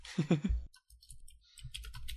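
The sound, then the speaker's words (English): A computer keyboard is typed on in faint, sparse clicks and key taps after a brief louder sound at the start. “I'm just going to do this and type this in here as we go.”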